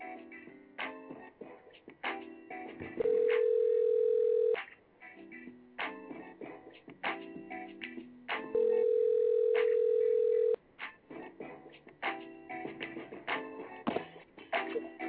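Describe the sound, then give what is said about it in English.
A telephone dial tone sounds as a call is placed: two long, steady, low tones, each lasting a second or two, set apart by stretches of busier, uneven sound. “Dialing out now.”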